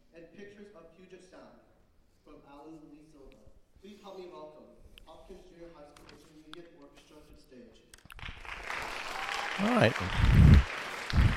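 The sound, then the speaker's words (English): Applause from a middle school festival audience welcoming a speaker breaks out after a man's spoken introduction, a dense clapping roar that swells loudly through the final few seconds. “A nice warm welcome from the audience.”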